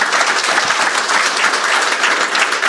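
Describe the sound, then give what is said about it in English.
Audience applause at a live developer talk in Houston: a dense, even wash of clapping holds at steady loudness for the whole short stretch, with no voices on top. “Give them a hand for IntelliSense.”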